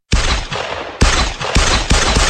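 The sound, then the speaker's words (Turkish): Gunshots fired by a helmet-wearing attacker inside a room at a holiday complex in Mersin: four loud, sharp blasts, each trailing off into a dense burst of noise, with no voices. “Kasklı saldırgan site başkanımızın bulunmuş olduğu odaya girip iki el ateş açıp olay yerinden ayrılıyor.”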